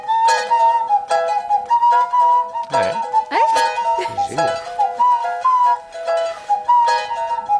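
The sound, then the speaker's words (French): A nose whistle held in the nostrils and blown through the nose, with the mouth shaping the resonance, plays a clear, reedy melody. Sustained notes waver in pitch and swoop up and down in quick slides. “siffler avec son nez. En utilisant un instrument avant, le sifflet à nez, un truc qu'on se colle dans les narines et la bouche fait caisse de résonance.”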